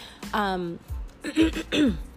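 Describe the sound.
A person clearing their throat: several gruff, voiced rasping bursts in quick succession, rough and fairly loud, separated by short pauses.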